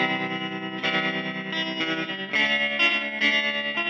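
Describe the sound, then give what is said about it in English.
Electric guitar played through a tremolo effect in an early-60s surf or western style, its sustained notes pulsing in a rapid, wavering warble as a few new notes enter one after another. “This effect is called tremolo. You can get it with a pedal or with an amp.”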